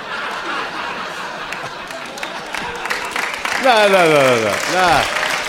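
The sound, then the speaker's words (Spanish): Audience applause at a live comedy show, a steady patter of many hands clapping mixed with chuckles, growing louder toward the end, where voices cry out in falling, wavering whoops over the clapping. “No aplaudan dando, si no va a durar un chingo el disco. Y luego le tenemos que cortar todo y que eran puros pinches aplausos.”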